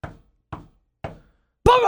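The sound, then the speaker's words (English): Three firm knocks on a door, evenly spaced about half a second apart, each sharp and hollow with a quick decay, followed by the abrupt start of a voice. “a knocking at the door.”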